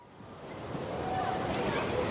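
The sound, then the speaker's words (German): Wind blows across an outdoor schoolyard as a steady, broad rushing roar with low rumble buffeting the microphone, swelling slightly louder over the couple of seconds. “Brr, es ist ganz schön windig hier draußen auf dem Schulhof.”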